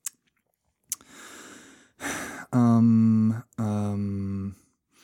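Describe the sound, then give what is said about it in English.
A voice imitates stray mouth sounds and breaths: a couple of sharp little clicks, then a breathy exhale, then two drawn-out, wordless voiced tones, with no actual speech. “look for every little mouth sound or unnecessary breath or weirdness, and I take it all.”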